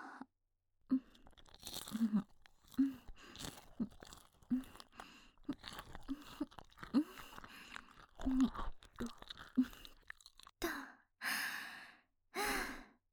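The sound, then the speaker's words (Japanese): Someone chews and crunches a last mouthful that includes bone. Many irregular wet bites and crunches are heard, followed by a few breathy exhalations. “あなたの頭のてっぺんの骨もいただけてるわよ。はい、これが最後の一口。”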